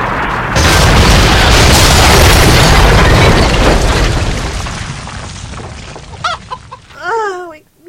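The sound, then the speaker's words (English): A plane crash-landing: a long, loud roaring crash that holds steady for several seconds and then slowly fades, followed by a few short, high squealing chirps near the end. “This is the captain speaking. Everyone brace yourselves for crash landing!”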